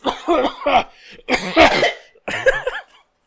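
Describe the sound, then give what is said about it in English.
Loud, harsh coughing from behind, in three separate bouts, the first made of several rapid coughs. The coughs are rough and throaty, with nothing else around them. “you hear a loud coughing coming from behind”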